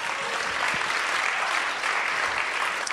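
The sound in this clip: A church audience in Chicago applauds to welcome a guest speaker, with steady, dense clapping that keeps an even level for the full three seconds.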